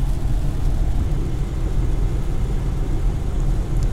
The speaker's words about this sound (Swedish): Men BMW pinnar fortfarande på i glada 80-knyck, så att vi håller hastighetsgränserna och ja, vi kör på.